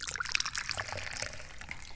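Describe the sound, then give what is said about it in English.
Longjing green tea pours from a teapot in a soft, steady, faint trickle of liquid that runs the whole time, with no voices over it. “maybe we need to pour us some more. I think we do.”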